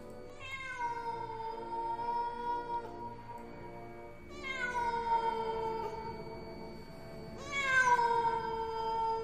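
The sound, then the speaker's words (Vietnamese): Stray cats wail at night in a cemetery with three long, drawn-out cries spaced a few seconds apart. The cries are rather faint and mournful, each with a rising then sagging tone, and there is no talk. “Những con mèo hoang, nó bắt đầu đi lang thang trong nghĩa địa, kêu lên những tiếng thảm não, nghe đến giận cả người.”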